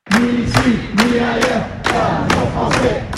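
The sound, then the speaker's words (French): A protest crowd of about 200 people demonstrates in front of a town hall. The chanting is loud and rhythmic, and regular thumping beats land about twice a second, steady throughout. “Le bruit de la manifestation dehors contraste avec le calme du conseil municipal.”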